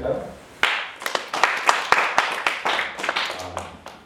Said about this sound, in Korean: 자, 박수 한번 시작. 이게 한 마음이 안 되는 것 같아요.